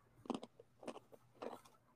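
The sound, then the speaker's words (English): Faint crunching as someone bites into a peanut-heavy crunch snack that is crumbly rather than crisp. There are three separate crunchy bursts, evenly spaced, with quiet between them. “That bite sounded crunchy. That was to help me prove my point, and that was crunchier than it was earlier”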